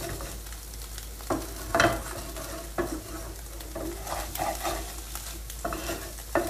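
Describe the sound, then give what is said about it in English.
Scraping of dry, stuck-on bits of cooked egg from a pan: several rough, raspy strokes repeating at an uneven pace over a steady background hiss, with no voices. “I like scraping up the dry bits stuck to the pan. That's what you hear. Eggs are ready.”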